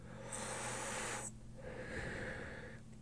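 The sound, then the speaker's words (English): Inhaling from a vape: a steady airy hiss lasting about a second, then after a short pause a second, softer breathy rush of air. “Excuse me, by the way, if you hear bits of silence, it's probably me hitting my vape.”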